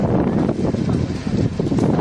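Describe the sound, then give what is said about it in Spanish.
Strong wind blows near the Burgohondo forest fire area in Ávila. The gusts roar and buffet the microphone continuously, a loud, dense rush that swells and dips slightly without pause. “Esto que escuchamos, el viento, ha provocado este fin de semana alguna pequeña reproducción del incendio de Burgondo”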